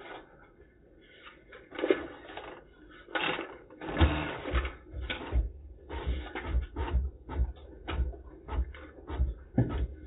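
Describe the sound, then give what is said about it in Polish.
A machine prints voting results at a council session, making a rhythmic, buzzing mechanical chatter in short bursts separated by brief pauses. The sound is faint and muffled. “Poproszę o wydruk.”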